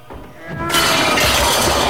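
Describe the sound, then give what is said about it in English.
A gold candle holder is knocked out of someone's hands and falls during a sword fight. After a quieter lead-in, a sudden loud, bright crash bursts in and sustains as a dense, ringing clatter to the end. “Cyrus knocks the candle holder out of Rudy's hands.”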